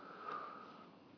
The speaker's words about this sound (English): So take a nice, full, complete in-breath through your nose.